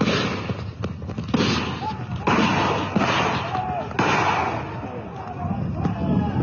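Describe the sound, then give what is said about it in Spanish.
Police firing tear gas and rubber bullets at a road blockade in Caranavi: several sharp, booming bangs at irregular intervals, over a constant rumble of crowd noise with people's voices shouting throughout. “Esas voces son de la policía, que están disparando gases lacrimógenos, balines de goma.”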